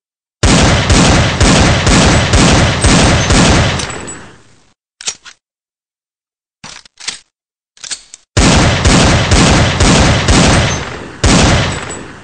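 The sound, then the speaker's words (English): Gunshots from target shooting with Corbon Powerball or Winchester Silvertip ammunition: loud, rapid strings of sharp reports in two long bursts, with a few scattered single shots in the pause between and no talking. “Were those the Corbon Powerball bullets or the Winchester Silvertips?”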